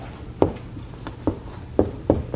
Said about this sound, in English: I'm going to write three things here again.